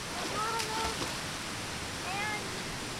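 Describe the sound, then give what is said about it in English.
Loud, continuous rushing and splashing of fountain water as kids kick and play in it, with faint children's voices rising briefly above the steady spray. “We're actually going in the fountain. I like splashing and like kicking”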